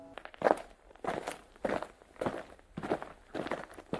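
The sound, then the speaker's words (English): Footsteps of figures walking closer, heard as a steady series of even, moderately loud steps falling roughly every half second, with no voices. “Ayush directs her attention to the three bright and shiny stars that are walking towards them.”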